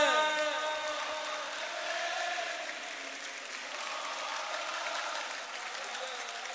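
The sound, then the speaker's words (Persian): A crowd at a religious chanting gathering claps along in dense, steady applause, with a chanting voice carrying over the clapping throughout. “یه بار دیگه همه با هم، همه دست بزن بگو.”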